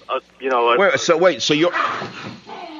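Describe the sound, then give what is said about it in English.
Two dogs fight under a desk, making a brief opening yip followed by a run of loud, high, bending whines and yelps that fade into quieter growly noise. “My dogs are fighting under the desk.”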